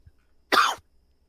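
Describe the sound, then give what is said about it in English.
A single short, sharp cough stands out clearly against near silence. “had to mute you. I was coughing.”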